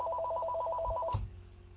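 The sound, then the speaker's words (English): A telephone ringtone trills in rapid, evenly spaced electronic pulses at a steady pitch, then cuts off abruptly with a soft low thump, leaving only a quiet hum. “whoops, here's my phone. I'm going to have to let that go into voicemail.”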